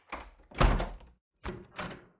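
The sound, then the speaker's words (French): Door slammed shut, heard as a few heavy, dull thuds in two close pairs with a short silent gap between them. “Et elle me ferme la porte au nez.”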